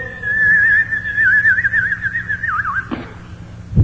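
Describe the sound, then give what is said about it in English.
A voice whistles in imitation of a projectile falling toward the earth. The sustained, wavering whistle dips lower near the end, then a brief noisy burst and a low thud follow. “And what it did was it whistled as it came up and down toward the earth. Now, it didn't make it any worse, it just sounded worse. And it'd come down, you know, and it'd go...”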